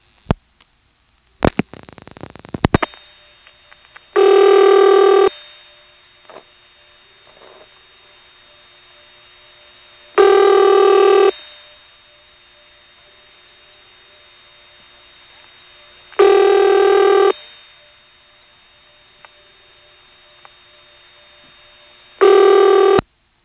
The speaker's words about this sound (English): Now we'll dial the last digit, and you'll hear the director repeating it and then dropping out.